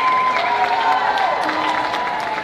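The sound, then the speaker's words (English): Audience cheering and applauding at a live show in the Midwest, a dense, continuous wash of clapping and crowd shouts at a steady, loud level throughout. “I don't know if you can hear that, but we're hearing some regional cheers down here.”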